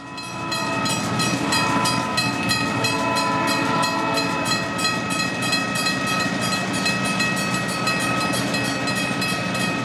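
Train sound effect with a rhythmic clickety-clack of rail wheels under a steady, loud horn-like tone, running continuously without voices.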